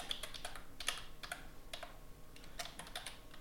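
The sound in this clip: Keystrokes on a computer keyboard as a name is typed: a quiet, irregular run of many light clicks, falling in short bursts with brief pauses between them.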